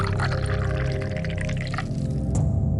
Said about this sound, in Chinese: 陈元将托盘放在地上，手执酒壶，将壶内的酒倒入盏内